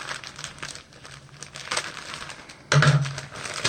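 Crinkling and crumpling of packaging as a shipped package holding a T-shirt is cut and opened, irregular rustling bursts that turn louder and denser near the end.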